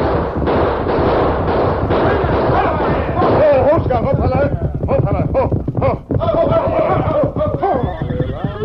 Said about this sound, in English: A signal from the leader and five masked horsemen, guns blazing, moved out to intercept him.